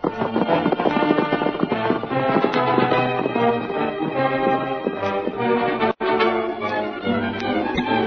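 Horse hooves gallop in a rapid, unbroken drumming rhythm that stays loud and steady, with one brief dropout near the end.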